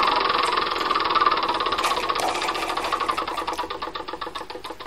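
In a video board game, a spinner whirs with a fast mechanical rattle of clicks. The clicks spread apart into distinct ticks as it slows toward a stop.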